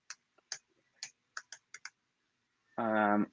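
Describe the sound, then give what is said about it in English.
Keys clacking on a computer keyboard in several separate, evenly spaced taps, followed by a short gap and then a voice speaking. “I need to spell it right, so I have to stop talking as I type because I am very dyslexic when I am writing.”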